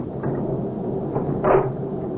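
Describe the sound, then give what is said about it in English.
A door being closed and locked: a few soft clunks and knocks over a steady background hiss, with the loudest, sharpest knock near the end. “will you get the door closed and locked?”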